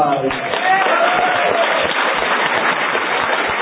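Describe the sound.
Crowd applause rewarding the winners of a flag-capturing game at a live event, a steady dense clatter of hands with voices audible over it.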